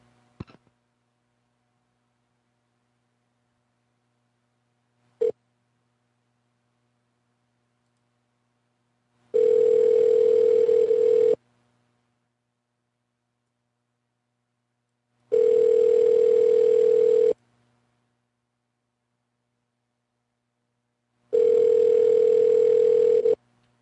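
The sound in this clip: Telephone tones while a call is transferred: a couple of faint clicks, then three identical steady mid-pitched tones, each about two seconds long and evenly spaced with long silences between them.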